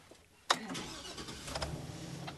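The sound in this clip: A big church van's engine starts up; the van is one a church loans out for grocery runs. A sharp cranking burst catches into a steady, low, rumbling idle.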